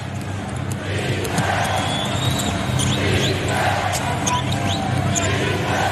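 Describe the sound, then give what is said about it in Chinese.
A basketball being dribbled during a game in protective dribbling, with steady bouncing under a continuous crowd roar and babble. “你看这些都是保护型的这种运球，就所以就没有任何的威胁。”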